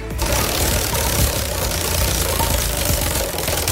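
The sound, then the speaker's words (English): A prize wheel spinning sound effect gives a loud, rapid, continuous ticking rattle that holds steady for the whole stretch, with no slowdown. “It's my wheel from Amazon, so I think I'm going to need the sound effect because I don't think you're going to be able to hear it. Here we go. Spin the wheel.”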